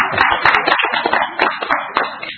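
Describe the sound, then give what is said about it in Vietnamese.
A group claps for a couple's 21st wedding anniversary at a gathering led by a priest, loud, busy hand claps in quick uneven bursts that run without a break. “Chúng ta chúc mừng anh chị bằng một tràng pháo tay.”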